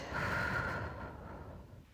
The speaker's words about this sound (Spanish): Vas a inhalar lo más profundo que puedas Sostienes. Exhalas.